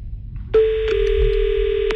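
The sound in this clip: A telephone line tone plays as a call is placed. A single steady mid-pitched tone starts abruptly and holds unbroken for over a second over a low background rumble.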